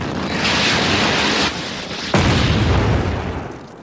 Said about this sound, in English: Iraqis again, launching Sidewinder missile. Missed him. Launching second Sidewinder missile.